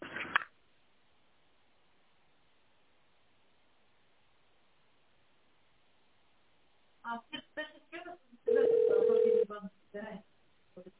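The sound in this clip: A single steady ringback tone sounds on a narrow telephone line as a call to a company's secretary connects after an automated menu. Brief muffled voice fragments come just before and after the tone.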